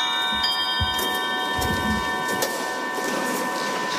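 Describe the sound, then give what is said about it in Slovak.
A 19th-century silver swan music box plays, its high ringing tones held steady over faint, soft mechanical ticking, quiet throughout. “Bola to hracia skrinka, bola to strieborná labuť, ktorá kedysi bola ozdobou nejakej domácnosti v 19. storočí.”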